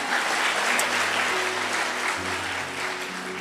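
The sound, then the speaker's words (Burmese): Congregation applauding in praise during a church worship service: dense, steady clapping that fills the whole clip, easing slightly toward the end. “ဟာလေလုယာတီးခံတော်မူသောဘုရားကိုလက်ခုပ်တီးတဲ့ချီးမွမ်းရအောင်”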